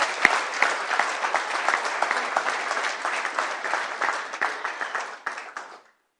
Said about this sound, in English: You are clapping. Clap your hands.